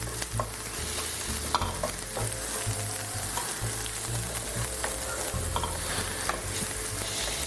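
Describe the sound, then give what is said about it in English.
Onions browning in a pan over heat, a steady dense sizzle and crackle of frying that continues without a break, with occasional stirring scrapes and small pops throughout. “the onions look like they are getting to the point. I'm going to turn the heat down to very low so that I don't burn them”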